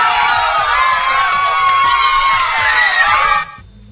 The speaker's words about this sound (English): So, the game is over. Can we have a yay?